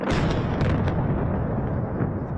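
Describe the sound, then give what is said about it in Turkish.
Artillery fire shelling villages in southern Lebanon: a dense, continuous low rumble of booming noise that stays loud throughout, with a few sharper bursts standing out early on. “Lübnan'ın güneyindeki beldeler topçu ateşine tutuluyor.”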